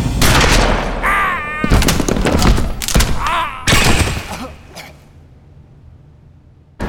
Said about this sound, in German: griff sich die Waffe, die auf dem Boden lag, und drückte ab.